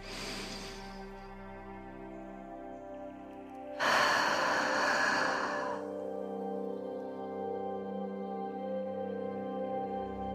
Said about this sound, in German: Nimm noch einmal einen tiefen, ganz langen und bewussten Atemzug.